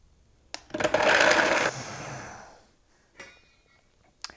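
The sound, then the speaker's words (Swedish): A kitchen blender blending cashew nuts: a loud, dense whirring burst lasting about a second, then winding down over roughly another second, with a few sharp clicks afterward. “Och sen lägger vi till resten efter cashewnötterna har blivit väldigt fin fördelade. Så kör vi vår mixer.”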